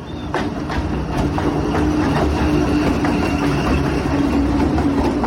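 A train passes along the tracks in a steady, loud rumbling roar with rattling rail noise that holds evenly throughout, with no voices.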